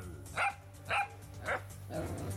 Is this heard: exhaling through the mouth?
no